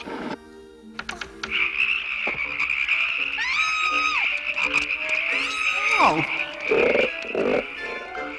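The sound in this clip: Frogs croak in a steady, high trilling drone, with repeated throaty croaks rising above it over several seconds while voices talk.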